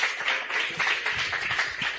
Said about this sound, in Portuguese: Receba o homem de Deus com as palmas bem alegres para Jesus.